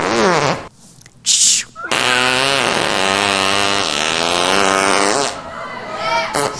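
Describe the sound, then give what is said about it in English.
Loud, buzzy farting noises: a short burst, then a longer drawn-out one with a wavering, rippling pitch that sputters on for several seconds before trailing off. “Cindy Jacobs, the farting prophet”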